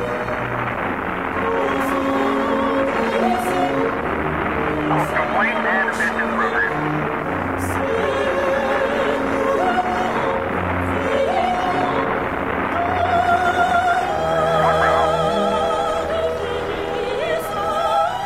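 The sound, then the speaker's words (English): Apollo 11 rocket liftoff roar: a steady, dense rumble holds without pause under radio voices talking throughout. “Liftoff. We have a liftoff. 32 minutes past the hour. Liftoff on Apollo 11.”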